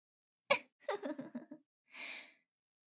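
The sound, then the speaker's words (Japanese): A person draws a deep breath: a sharp intake, a quick run of short voiced catches, then one long breathy exhale, quiet and with no words. “わかったら、観念して深呼吸したまえ。”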